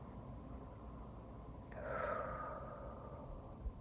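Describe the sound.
Faint deep breath during a guided belly-breathing exercise, inhaling and exhaling: one soft airy swell of breath that rises and fades midway, over a low steady background hum.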